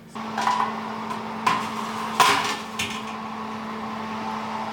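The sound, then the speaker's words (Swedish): An oven door clunking as a cake goes into the oven, with a few sharp metallic knocks and rattles over a steady low electrical hum. “Nu ska den ju in i ugnen.”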